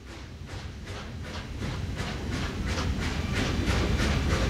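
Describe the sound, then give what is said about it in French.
A small train wagon from La Raspelière, in 1901, clatters along rails in a steady rumbling roll with regular rhythmic wheel clicks, growing slightly louder toward the end. “Wagon. Petit train venant de la Raspelière.”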